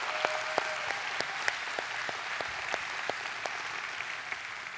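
A church audience applauds with sustained clapping, many crisp individual claps popping out of a dense, even wash of hands that carries on without a break.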